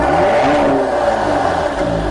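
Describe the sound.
Car engine revving, a twin-turbo 3-litre V6 petrol in a nearly 2.5-ton all-wheel-drive vehicle with a nine-speed automatic, giving a loud, dense, sustained roar with a whirring edge throughout.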